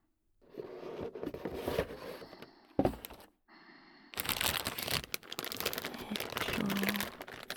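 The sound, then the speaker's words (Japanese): Soft crinkling and rustling as model kit parts are taken out of their box, a fairly steady flow of crackly plastic and scraping sounds broken by a short lull. “その前に箱から取り出して。”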